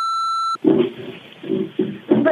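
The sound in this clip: An answering machine gives one steady, high electronic beep after its greeting message. The beep is cut off sharply, and talking follows.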